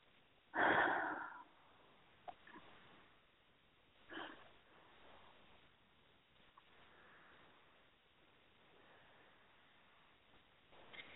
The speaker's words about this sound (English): Three nice deep breaths.